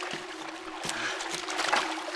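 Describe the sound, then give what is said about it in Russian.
Water splashes as a man wades in up to his waist: a few sloshing bursts over a low, steady hum. “Быков быстро входит в воду, зайдя по пояс, аккуратно тянет к берегу одну из тел.”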